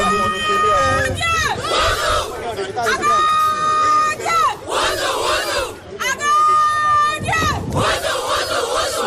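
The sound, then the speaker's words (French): Benin's women's U20 football team chants a war cry in white T-shirts before supporters welcoming them home after World Cup qualification. Loud, repeated shouted phrases in unison alternate with bursts of crowd cheering and chatter. “Regroupées devant le public, les Amazones U20, habillées en t-shirt blanc griffé, Pologne 2026, on y est, lancent ensemble le cri de guerre.”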